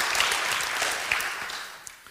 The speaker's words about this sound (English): If you would commit to that today, would you put your hands together and say, brother, I got you. We're praying for you. Welcome to the family. We got your back.